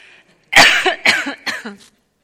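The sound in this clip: Three short, sharp coughs in quick succession from a tickle in the throat, loud and alone with no talk, after a faint breathy sound.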